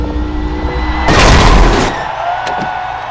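A race car crashes in a video game after failing to clear a jump: a steady engine drone gives way to a loud, roaring burst of crash noise lasting about a second, then the engine runs on more quietly with a few brief clicks.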